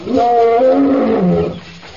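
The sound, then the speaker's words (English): A ferocious lion roars in a jungle forest, giving one loud, sustained, throaty roar with a growling edge that lasts about a second and a half before dropping away. “approaching rapidly the roar of the lion”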